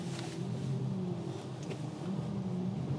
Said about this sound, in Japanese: 運転中なんでちょっと今日ねあの新しい道をね走ってるんでねちょっと気をつけつつ行かないと。